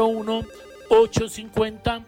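A telephone rings with an incoming call to a phone-in line: a series of short, bright tonal bursts in a stepped, melodic pattern, fairly loud.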